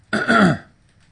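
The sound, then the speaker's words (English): A man clears his throat once in a short, gravelly rasp that is fairly quiet and heard alone. “He clears his throat. Okay, well, you cleared your throat, so I figured.”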